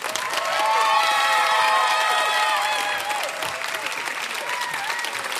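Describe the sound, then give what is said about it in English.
Clapping and cheering from an audience voting at the end of a debate on whether the arts are essential, with many high shouting voices over the applause, loudest early on, then easing to a steadier level. “I feel we had more claps, but they had louder cheers.”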